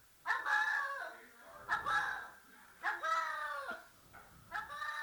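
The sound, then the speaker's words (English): Cat making strange, squawking calls that sound oddly like a chicken. It gives four drawn-out, harmonic bursts separated by short pauses, each rising and wavering. The calls are moderately loud with a quiet background between them. “That's a cat? That's a cat. It just sounds like blah, blah, blah, blah, blah, blah, blah, blah.”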